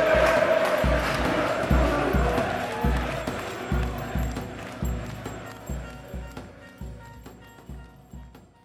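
A protest crowd of rival football supporters massed at Taksim Square, chanting in unison with regular heavy thumps beating underneath. The roar stays dense and rhythmic, then slowly grows quieter toward the end.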